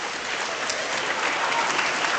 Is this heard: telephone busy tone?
no